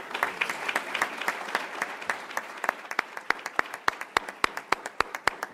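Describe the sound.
Warm audience applause welcomes a speaker at a charity running group's gathering. Dense, steady clapping builds as sharp individual claps stand out more toward the end, with no talking over it.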